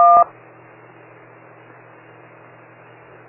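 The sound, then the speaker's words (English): A DTMF tone for digit 1 on a ham radio transmission, a crisp two-pitch beep lasting only a fraction of a second, followed by steady low radio hiss with a faint hum underneath. “You hear a DTMF 1. It's the same one as is on your auto patch dialing pad.”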